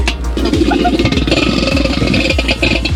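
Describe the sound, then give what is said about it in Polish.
Hand-cranked centrifugal milk cream separator from the 1970s, turning stiffly: a continuous whirring clatter with a regular pulse of low thumps marking each turn of the crank. “tu mamy urządzenie, które było używane jeszcze w latach, powiedzmy, 70., tak zwana wirówka do mleka. Ona tu jest bardzo ciężko chodzi”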